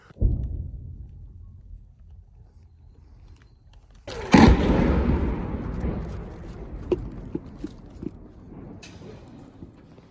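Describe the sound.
Artillery shelling in Kherson city centre: a single heavy blast bursts out partway through, its rumbling roar decaying slowly over low background noise, followed by a few sharp, faint cracks.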